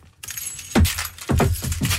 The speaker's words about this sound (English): And now my keys are in the fruit bowl.